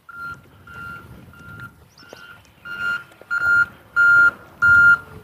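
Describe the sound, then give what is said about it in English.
Reversing beeps sound from road construction vehicles working at the end of a street, eight evenly spaced single-pitch beeps that grow noticeably louder in the later half, over a low rumbling engine. “The delicate sounds of road construction.”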